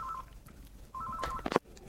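Touch-tone beeps dial a call in to a radio show: a short tone at the start, then a quick run of several beeps, ending in a brief sharp burst.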